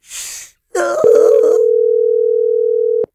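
Telephone dial tone after a call is hung up: a single steady, loud tone that holds for about two seconds and then stops abruptly. A brief burst of noise and a short voiced sound come before it.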